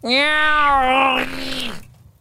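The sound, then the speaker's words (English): A cat's long, drawn-out meow, strong and sustained, with a steady tone that wavers slightly before trailing off. “made strange, horrid noises, as only cats do at night.”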